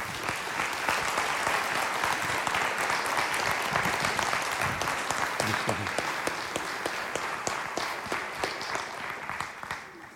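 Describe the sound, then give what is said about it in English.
Sustained audience applause welcoming a guest speaker at a church gathering, a dense, steady wash of clapping for about ten seconds that eases slightly at the end. “would you do me a favor and put your hands together and welcome Alistair Geddes.”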